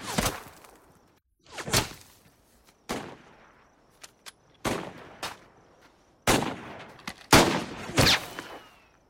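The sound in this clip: Soldiers fire rifles at a target in a World War II film set on Iwo Jima. Many loud, sharp gunshots crack at irregular intervals, some in quick pairs, each decaying briefly before the next.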